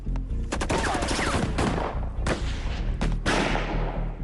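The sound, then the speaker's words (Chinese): Gunfire from a squad returning fire during a breakout from a village: dense, loud volleys of rapid shots and bursts, with sharp cracks stacking over one another throughout. “2队立刻开火还击。”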